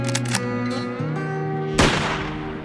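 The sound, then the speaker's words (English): A single sharp rifle shot fired at a coyote from a ridge above a flock of sheep, under heavy rain clouds. The crack bursts out loud about two-thirds through, over steady sustained tones, then trails off. “He shoots at but misses a coyote.”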